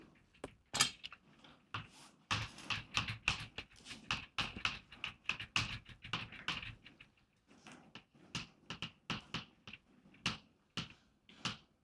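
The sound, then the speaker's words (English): Someone is writing something down: many quick taps and light scratches come in irregular clusters, mostly loud and close together, with a brief quieter gap partway through. “Yeah, let me just write it down.”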